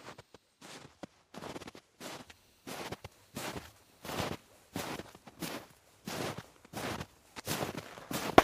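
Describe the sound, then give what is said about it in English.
Footsteps walking outdoors: many crunching steps in a steady, unhurried rhythm, each one a short gritty scuff, fairly quiet with near-silence between steps. “Walk and breathe in the fresh air with me for a while.”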